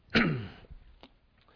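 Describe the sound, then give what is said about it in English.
A person clears their throat once in a short, rough burst that fades quickly, followed by a few faint small sounds. “sorry, I got a something in my throat here.”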